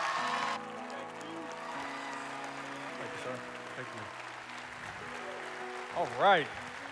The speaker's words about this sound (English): come on, church, would you stand to your feet, put your hands together, and help me welcome Pastor Keith Pittman.